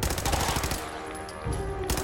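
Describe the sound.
Rapid gunfire aimed at a ghoul in the video game Fallout 4: a dense burst of shots, a short lull of quieter hum, then another burst.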